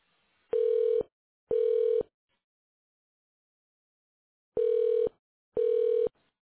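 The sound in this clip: Telephone keypad tones sound as buttons are pressed on an automated phone menu. There are four clean, steady beeps of equal pitch, set in two pairs with a silent gap between them.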